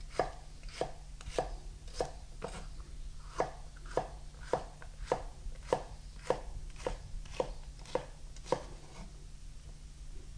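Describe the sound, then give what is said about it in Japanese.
A knife slices a halved vegetable, placed cut side down, into 5 mm strips: many crisp, evenly spaced chopping taps in a steady rhythm, fairly quiet, with no voices. “そして半分に切った断面を下に置いていただきまして、端から5ミリ幅ほどに切っていきます。”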